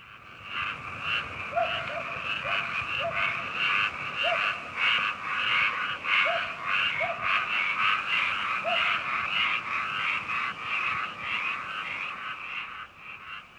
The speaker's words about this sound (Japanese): カエルね、早速聞かせてもらいましょう